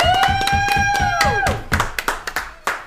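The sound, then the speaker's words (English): A live studio audience claps loudly. Quick, evenly spaced claps run under a held voiced tone for the first half, then break into scattered sharper claps. “Wow, that was loud. All right, thank you to the live studio audience. It's been a few weeks since we've had that live studio audience. Hope your ears are intact.”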